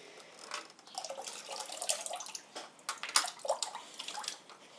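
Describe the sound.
Water runs from a sink tap through a filter, giving a faint, uneven stream of soft splashes and drips that swell and fade throughout.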